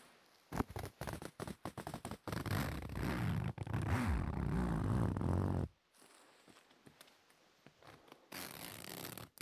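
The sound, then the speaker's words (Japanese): A zipper is worked open and closed: a few quick raspy strokes, then a long continuous grinding run, followed by softer, scattered short tugs and ticks. “ファスナーの音、お好きですか？”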